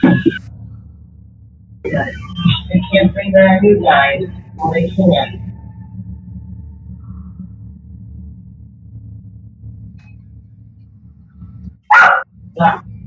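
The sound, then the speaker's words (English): A dog barks in short, sharp bursts, once near the start and again near the end, while people talk in between over a steady low hum. “When those dogs got on the boat, on the ship.”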